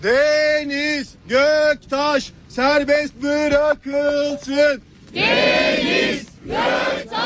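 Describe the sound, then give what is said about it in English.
Protesters outside a courthouse in Istanbul chant in the rain, a crowd of voices repeating one phrase in many short rhythmic bursts, ending in a longer, louder collective shout. “what you heard there were chants of Free Deniz Göktaş”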